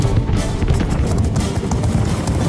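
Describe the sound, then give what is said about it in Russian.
Heavy hooves of a herd of enraged bulls charging down a road, a dense, loud pounding rumble that stays steady and unbroken throughout. “обогнув поворот, на дорогу выбегает стадо разъяренных быков.”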